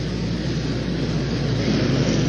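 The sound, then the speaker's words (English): Hot rod lawnmowers with single-cylinder flathead side-valve engines race in a qualifying heat on a very short track, giving a loud, continuous engine roar that holds steady without a break. “This is a heat race for qualification for the flathead lawnmowers. Hot rod lawnmowers powered by flathead engine, side-by-side pocket valve, single cylinder.”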